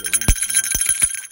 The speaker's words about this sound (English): And that little, what do you call this, jingling? That little noise you hear is our bear bell. Maybe here, I'll take it out of my pocket.